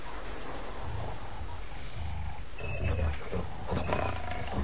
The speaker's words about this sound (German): Was denn das? Klingt wie ein Löwe.